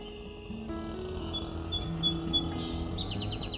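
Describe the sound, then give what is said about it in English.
Thin, high peeps from a small bird sound faintly over a low, steady background hum, a short run of repeated notes followed by a quicker series of chirps. “He goes peep, peep, peep. And then three peeps and then a kind of a trill.”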